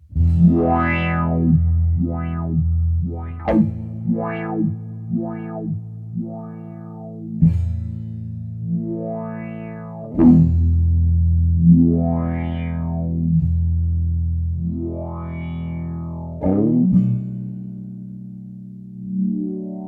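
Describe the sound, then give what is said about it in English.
A guitar through an envelope filter pedal, with triangle-wave and random modulation combined, while the pedal flips through its modes: a series of distorted, chorus-tinged notes, each swelling and fading in a sweeping rise and fall of tone, with no talking. “where we've got this the triangle wave and the random put together, I'm just going to flip through the different modes so you can hear what that does without adjusting anything else”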